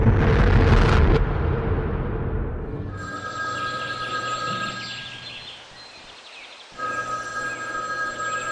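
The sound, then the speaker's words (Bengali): A hotel room telephone rings with a bright, steady electronic trill in two bursts separated by a short pause, after a loud rumbling burst at the start. “পরদিন সকাল 7টায় আমাদের হোটেলের ঘরের ফোনটা বেজে উঠল।”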